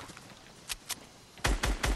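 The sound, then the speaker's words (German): Gunfire from the Excalibur rifle in the video game Fortnite: two fainter shots are followed by three louder, punchier reports in quick, even succession. “Aber irgendjemand hat da mit dem Excalibur geschossen, das ist gar nicht, gar nicht gut.”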